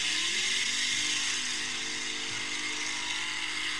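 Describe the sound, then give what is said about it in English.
A V8-engined motorcycle doing a burnout gives a loud, sustained engine roar with a harsh high hiss over it. The sound stays steady and unbroken throughout, with no voices. “none of us could even handle this bike. It's got a V8 on it. Yeah, the fucking motor is just like... Yeah. This dude does a burnout. Watch this shit.”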